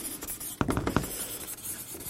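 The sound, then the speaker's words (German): Writing on a board: a short burst of several scratchy strokes of a pen or chalk, with a soft rubbing background before and after. “dann schreibe ich mal hin, evangelikale Reaktionen”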